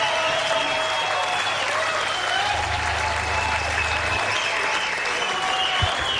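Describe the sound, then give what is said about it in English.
An audience applauds after a performance, a dense, steady wash of many hands clapping that stays loud and even throughout. “Another round of applause, because that was just...”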